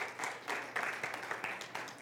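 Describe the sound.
A church audience applauds to welcome a man forward to read a prayer. The clapping is steady and moderately dense, with slight surges in intensity.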